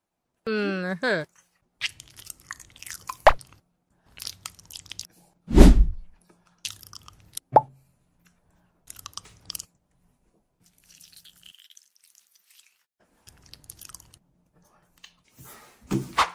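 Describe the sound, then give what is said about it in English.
Chocolate being chewed and crunched, with a few sharp crunches spread among voices and other short noises. “Mmm, chocolate?”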